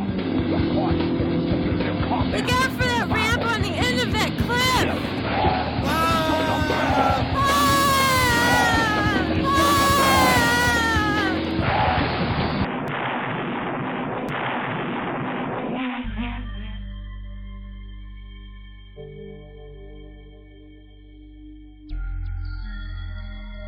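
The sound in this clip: A high-speed car crash as a car is cranked up and driven fast. Loud, dense roaring with sweeping engine-like whines and bangs fills the first half, then drops away into steady low sustained tones.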